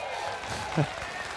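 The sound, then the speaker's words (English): Audience applause breaks out as a brief, steady patter of many hands clapping, continuous and moderately loud across the short moment. “I don't know why people clap for that.”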